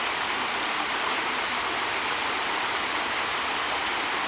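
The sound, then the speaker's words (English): Water pours over the artificially dammed steps of a pond in a loud, steady rush of hissing roar. It keeps going without a break, and no voices or other sounds rise above it. “These are steps where they've artificially dammed the pond.”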